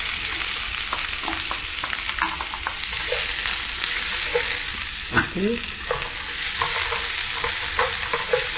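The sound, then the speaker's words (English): Onions frying in a pan after garlic, giving a steady loud sizzle throughout, broken by frequent scraping clicks as they are stirred. “Then now you want to do your onions, yeah? Okay, so the onion comes in.”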